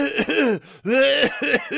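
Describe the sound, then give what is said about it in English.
A voice imitates a sick coworker's harsh, hacking cough in a workplace break room: a few rough, throaty voiced bursts, loud and alone with no other talk. “like literally hacking and coughing in the break room.”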